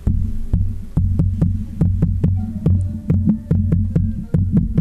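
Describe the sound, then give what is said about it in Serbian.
Rapid tapping on a microphone imitates the foot stamping of a folk dance performed without music: many sharp, evenly spaced thumps in a steady, throbbing rhythm, loud and alone with no voices. “smijemo malo da lupkamo u mikrofon da predočujemo”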